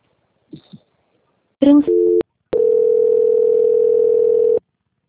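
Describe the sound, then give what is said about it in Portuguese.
Telephone line tones play while a call is transferred. A couple of faint clicks come first, then a short two-pitched beep, then a long, steady, loud tone that cuts off abruptly. No one talks. “Agora, senhora Rosa, peço que aguarde um momento em linha, por gentileza. Não desliga, não, que eu vou transferir o contato para o controle de qualidade”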